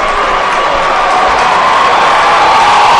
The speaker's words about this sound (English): Oh, man, these Pirate fans are wild.